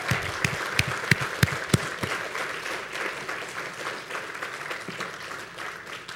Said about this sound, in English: the three choirs did such an excellent job. Let's give them a hand.